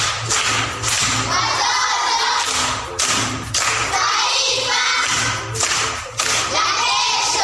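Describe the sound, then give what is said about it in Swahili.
A group claps loudly to reward a correct answer in a proverb quiz, with dense applause broken by a few brief, rhythmic pauses. “Makofi kwa shangazi.”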